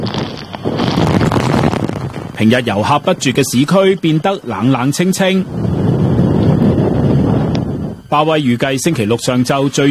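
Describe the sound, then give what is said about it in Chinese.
Typhoon Bavi's strong wind near Ishigaki Island, Okinawa, roars in loud buffeting gusts over the microphone, alternating with stretches of a reporter speaking. “风暴逼近冲绳石垣岛，风雨越来越大。”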